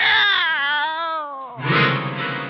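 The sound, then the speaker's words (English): A cat meows as a radio drama sound effect: a long, wavering, drawn-out meow that sinks slightly in pitch, then a harsher, raspier cry right after. “Well, what in the world can this be? Yeah! It's a cat, Miss Brooks. I brought him over to keep Minerva company.”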